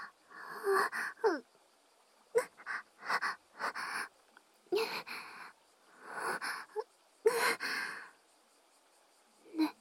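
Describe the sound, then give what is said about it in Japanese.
Heavy, unsettled breathing: many uneven breaths, long sighing and wheezy exhales alternating with sharper gasps, with brief silences between them and no talk. “そこ、くすぐったいよ。呼吸、落ち着かない。”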